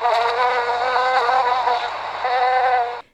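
Bees from a disturbed nest in a meadow buzz in a loud, dense drone. The wavering, steady hum runs without a break for about three seconds, then cuts off abruptly.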